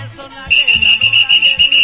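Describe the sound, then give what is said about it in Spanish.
A handheld whistle received as a gift is blown in a quick series of loud, shrill, rhythmic blasts, repeated many times at a steady pace after a short quiet start. “Raúl González, porque dice que ¿dónde compré el silbato?”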